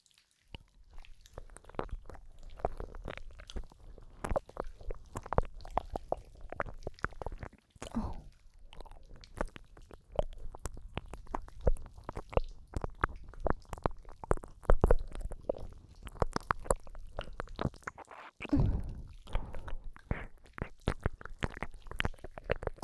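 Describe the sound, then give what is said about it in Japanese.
ASMR ear licking, with the tongue moving in tentacle-like motions, produces many soft, wet clicks, smacks and slurps in an irregular rhythm, broken by a couple of brief pauses. “私の耳なめうまいでしょ。まるで触手のように舌を動かすのがコツなんだ。”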